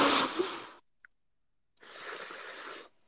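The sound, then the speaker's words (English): A person breathing in on request, a long soft breathy rush of air, then a brief pause and a second drawn-out airy breath, with no talking. “I need you to breathe in.”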